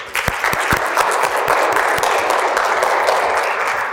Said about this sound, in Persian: متشکرم، خودتون تشویق کنید.